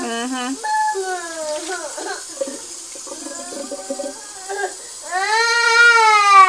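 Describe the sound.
A baby whining and crying in several short, wavering whimpers, then a longer, louder wail at the end.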